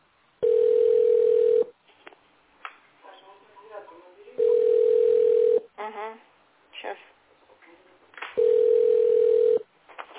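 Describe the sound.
Ringback tones play while an emergency dispatcher calls through to an apartment. Three steady buzzing tones of roughly one second each are evenly spaced, with people talking in the gaps between them.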